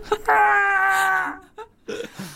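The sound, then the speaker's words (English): A man's voice imitates a man screaming as he falls off a tower: a loud, sustained wail lasting about a second, followed by a few short vocal sounds. “it's a sound of a man falling off a tower.”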